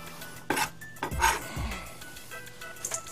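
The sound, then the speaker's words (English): A few clinks and knocks of a bowl and utensils as a melted chocolate and butter mixture is moved into a bowl in a kitchen, sharp and short, with quiet gaps between them. “Now I also have a couple, maybe like a tablespoon of butter in there. This is gonna give it an extra little layer of creaminess. So we're gonna put it all in this bowl here.”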